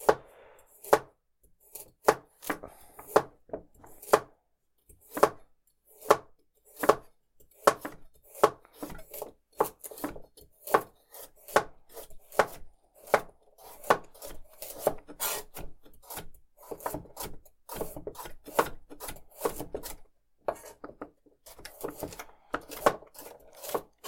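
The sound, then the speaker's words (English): A knife chops carrots into dice and sticks with many crisp, steady strikes over about 24 seconds. The strikes stay fairly quiet throughout and grow softer and quicker toward the end. “Carrot, just doing normal little guys. Yeah, normal, just diced or chopped or whatever. I'm going to do that with half, but with the other half, I'm going to try to make it as accurate of sticks as I can.”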